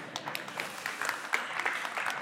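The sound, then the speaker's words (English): Light, scattered audience clapping during a church sermon: a quiet patter of separate hand claps with a few sharper ones standing out, and no voices. “I was going to keep doing it until you clap, so.”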